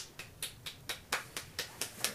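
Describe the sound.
One person clapping slowly and evenly, about nine soft, crisp claps spaced at a steady rhythm, with no voices around them.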